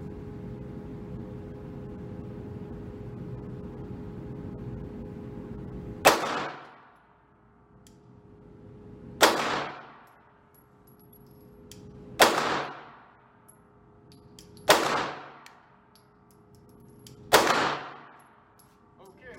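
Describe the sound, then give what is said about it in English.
Five sharp gunshots from a Glock 17 pistol, called the Guttersnipe, crack out at a few seconds' spacing over a low steady hum. Each loud report is followed by a short decaying tail. “But here we go with the gutter snipe, the Glock 17.”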